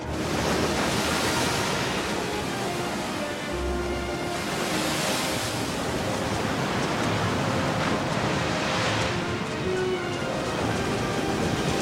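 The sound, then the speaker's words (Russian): Sea waves break on the shore in a continuous loud roar of surf, swelling and easing in a few slow surges, with no voices over it. “Позади них белые волны моря разбиваются о берег.”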